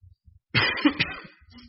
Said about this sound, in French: je suis un petit peu grippé encore. Fait que si je tousse, je vais essayer de boire de l'eau.